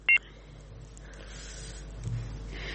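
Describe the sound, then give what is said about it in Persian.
A phone call is cut off with one short, high line beep, followed by faint hiss on the line. “متاسفانه بازم تماس برادر ما فکر کنم که قطع شد”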